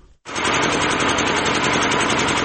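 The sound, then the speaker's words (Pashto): An old electricity generator runs at Yaqubi bazaar in Sabari district, its loud, steady engine drone starting abruptly after a brief quiet moment and holding constant. “دا د صبریو ولسوالۍ اړوند یعقوبی بازار کې د برښنا یو پخوانی جنراتور دی”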